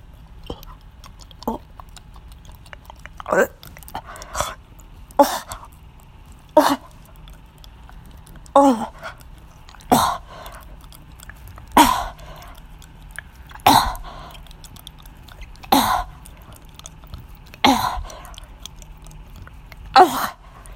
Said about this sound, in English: Listening to me gag even more.